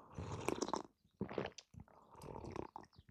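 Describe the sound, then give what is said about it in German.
Coffee is sipped in three soft, quiet slurps separated by short pauses. “Und dafür ist es nochmal Zeit, einen Schluck Kaffee zu trinken.”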